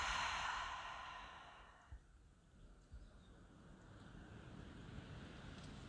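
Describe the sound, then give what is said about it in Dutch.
A long, deep breath during a guided relaxation exercise. The airy sound is strongest at the start and fades away over about two seconds, leaving a steady low background hiss with a couple of faint clicks. “En adem diep in. En langzaam uit.”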